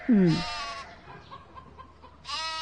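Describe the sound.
A lamb bleats in a short wavering cry at the start, then faint low rustling, and a second bleat rises near the end, both calls nasal and fairly loud.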